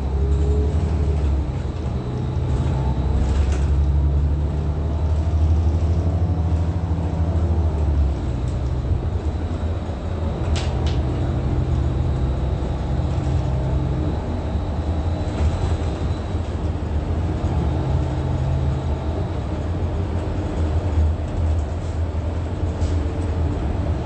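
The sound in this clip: Steady low rumble of riding on a bus, a continuous drone of engine and road noise with a few faint clicks and rattles scattered through it.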